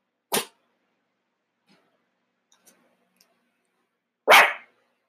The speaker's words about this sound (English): And that's my dog barking.